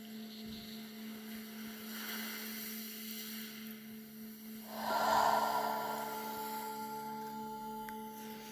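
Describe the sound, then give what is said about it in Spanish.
Slow, deep breathing, in through the nose and out through the mouth. A soft, breathy swell rises into one louder exhale, heard faintly over a steady low hum. “voy a dar un par de respiraciones profundas y lentas inhalando por la nariz y exhalando por la boca en las dos primeras.”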